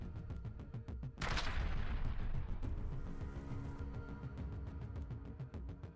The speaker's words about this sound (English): Several shots were fired at the tank, destroying it.